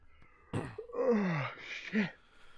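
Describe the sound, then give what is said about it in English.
A person yawns with a drawn-out voiced moan that slides down in pitch, followed by a short second vocal swell and no words. “We're not even reading the ending stuff and I'm already yawning.”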